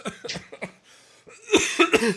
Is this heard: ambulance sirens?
no